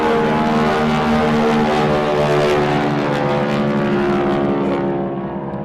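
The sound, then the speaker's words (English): Propeller drone of a T6 Texan aircraft during a flypast of aeroplanes: a loud, steady, richly harmonic engine roar that holds throughout and eases slightly at the very end. “Oh, the Texan T6. T6 Texan.”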